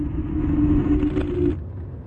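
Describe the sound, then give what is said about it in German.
Steady low engine rumble heard from inside a moving car, with a sustained hum over it that cuts off shortly before the end and leaves the rumble alone. “jetzt sitzen wir im Auto und fahren gemeinsam nach Siegburg”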